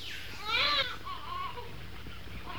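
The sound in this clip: A human baby screams in the jungle: one loud, high wailing cry burst, followed by softer whimpering sounds over a steady background hum.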